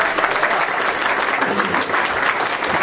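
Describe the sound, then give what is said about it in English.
Audience applause from a room of people, a sustained wash of dense clapping holding an even level for about three seconds. “Everybody give Mary a round of applause.”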